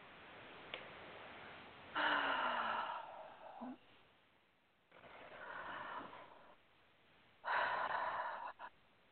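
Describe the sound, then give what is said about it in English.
Deep breathing, with three loud, drawn-out breaths separated by pauses. The breaths are heard alone, without talk. “Deep breath.”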